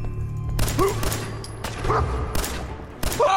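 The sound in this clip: Video game gunfire: a few sharp, loud shots crack out at intervals over a noisy game background, with brief tonal cries between them.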